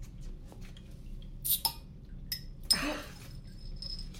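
A beer bottle from a crate is forced open without a bottle opener: a few light glass clinks and taps, then a sharp cap pop with a short hiss of fizz, all fairly faint.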